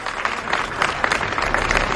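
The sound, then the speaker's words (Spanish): A crowd applauds at a public gathering in Saint-Denis, France, with many hands clapping in a brisk, dense patter that holds steady for the whole short clip. “Aplausos en Saint-Denis”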